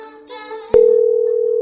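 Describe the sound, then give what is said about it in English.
Telephone ring tone on an unanswered call: a sharp click, then a steady, evenly pulsing tone that continues without pickup. “who is not going to pick up the phone. Is this the right number? I believe so.”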